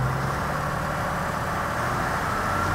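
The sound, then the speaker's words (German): A tractor engine, fully rebuilt with new cylinder liners and pistons, runs at full throttle with the power take-off driving an oscillating implement, making a steady, dense roar with a low rumble that does not change. “Es wird gleich laut. Der Schlepper fährt gleich mit Vollgas und das Gerät macht auch noch seine Schwingung. Und dann wird das ein bisschen ungemütlich. Machen wir Zapfwelle an.”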